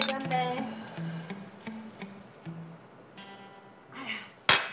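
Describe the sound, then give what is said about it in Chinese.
Drinking glasses clink together in a celebratory toast. Voices chatter and call out, and a single bright, sharp clink rings out near the end. “来来来，为了咱们的新世纪，干一杯！”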